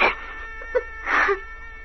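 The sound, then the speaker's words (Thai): A woman crying with soft whimpering sobs: a few brief, wavering cries separated by quiet pauses, faint and alone. “กุลธิดาเอ้ยอย่าเอาแต่ร้องไห้ไปเลย”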